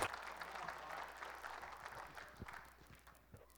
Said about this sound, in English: Y'all welcome Brother Mike to sing this morning. Y'all give him a hand.